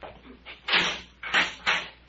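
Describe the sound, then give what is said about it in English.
A prison cell door being opened: a few harsh, noisy scraping and clanking bursts that swell and fade over a low background rumble. “Get the cell door”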